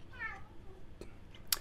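A tomcat gives one short, faint meow with a wavering tone, followed by a few soft clicks and rustles.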